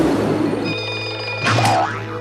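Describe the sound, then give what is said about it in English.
A torpedo launching from a submarine tube as a sound effect: a steady humming tone, then a sudden loud burst with a wobbling, springy pitch sweep. “Open door tube 1. Fire torpedo.”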